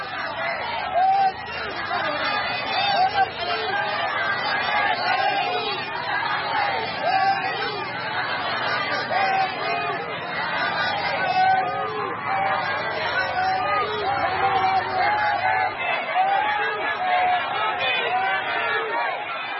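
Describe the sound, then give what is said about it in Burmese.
Crowds of citizens, staff and students line the road in Naypyitaw, welcoming Aung San Suu Kyi on her return from the airport: a continuous, dense babble of many voices chattering and calling. “အခုကြားခဲ့ရတဲ့အတန်ကတော့နေပြည်တော်နိုင်ငံတကာလေဆိပ်ကနေကိုပြန်လာနေတဲ့နိုင်ငံတော်ဤတိုင်ပင်ခံပုဂ္ဂိုလ်ဒေါက်တာဆန်းစုကြည်ကိုလမ်းမဝဲရာတစ်လျှောက်ကပြည်သူတွေဝန်ထမ်းအနေနဲ့ကျောင်းသူကျောင်းသားတွေကြိုဆိုနေကြတဲ့အတန်ဖြစ်ပါတယ်”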